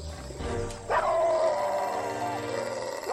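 Two dogs barking and howling as they attack a young woman on the ground: a rough burst of growling noise, then a long sustained howl with steady pitch that fades and swells again near the end.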